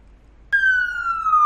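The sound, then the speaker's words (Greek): Police car siren passing through snowy residential streets: a loud, steady wailing tone that starts abruptly and glides slowly lower in pitch, heard alone. “ένα άλλο αστυνομικό αυτοκίνητο λέει με τη σιρήνα περνάει μέσα από τις κατοικήσιμες περιοχές”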